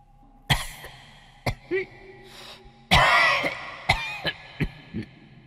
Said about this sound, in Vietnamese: Âm thanh ho sổ sụ vẫn cứ vang vọng. Nó nghe rõ là tiếng ho của người già,